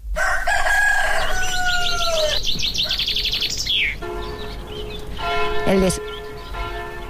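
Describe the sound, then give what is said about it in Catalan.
A rooster crows at dawn in a village before sunrise, a loud, strained call with a rising-then-falling shape. Ringing church bells follow, with sustained metallic tones that hang and fade. “Qui desperta, el poble, és el cant d'un gall. Les primeres campanades o una finestra que s'obri quan encara és negra nit.”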